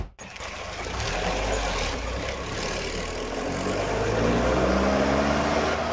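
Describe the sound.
A car engine starts abruptly, then runs in a steady, rumbling drone as the car drives off, growing slightly louder toward the end with no talk over it.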